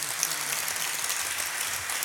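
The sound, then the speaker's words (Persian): Group applause at a devotional poetry recitation, a dense, steady patter of many hands clapping at an even level for the whole stretch, with no clear voices above it. “نه، یه کف خوشگل بزن.”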